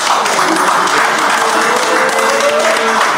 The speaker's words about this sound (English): God damn, make some noise for Steve fucking Rick.